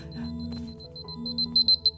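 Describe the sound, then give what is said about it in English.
An alarm going off: high-pitched repeated beeps, faint at first and growing louder toward the end, over a steady low hum. “I'm so sorry. That was my alarm.”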